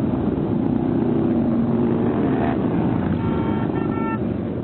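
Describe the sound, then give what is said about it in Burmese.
A dense, steady roar from a mass ride of about 3,000 motorcycles circling Washington DC, a continuous loud low rumble throughout, with a few short horn-like tones sounding near the end. “ဆိုင်ကယ်စီးတဲ့သူပေါင်း3000ချီဟာ Washington DC တစ်မြို့လုံးကိုလှည့်လည်ပြီးတော့မောင်းနှင်နေတာကြောင့်မိုးချိမ့်သံလိုမျိုးကြားနေရတာပါ။”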